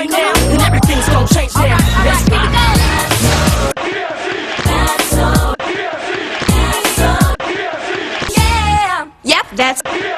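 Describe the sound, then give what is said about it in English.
A live studio audience cheering and shouting in loud, rowdy bursts with short gaps between them, mixed with voices. “That's so TFC was taped in front of a live studio audience.”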